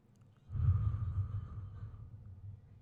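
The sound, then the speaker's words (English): A deep breath drawn in slowly, making a soft, breathy rush that lasts about two seconds and then tapers away, with no talk. “Let's take a deep breath.”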